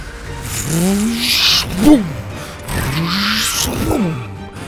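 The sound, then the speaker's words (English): Jeep engine revving hard while speeding and swerving through sand pits, fishtailing: two loud surges that climb in pitch and then fall away, over a steady rumbling roar. “Kirby swerved the speeding Jeep around the edges of the pits, fishtailing between them.”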